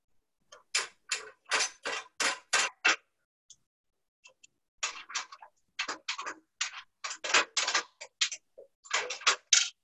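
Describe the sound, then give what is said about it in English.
Scratchy, rasping squeaks come from wing nuts being tightened while a Flex Garden stand is assembled: a quick run of short strokes, a brief pause, then a longer run of many strokes, with no talk. “And then there's two wing nuts. So simple, see how fast we can put it together.”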